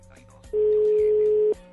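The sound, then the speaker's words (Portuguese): A telephone ringback tone heard while placing a call, a single steady mid-pitched hum lasting about one second that starts and stops abruptly over faint background noise. “Deixa eu ligar aqui, vai. Vamos lá. Deixa eu ver se me atende aqui.”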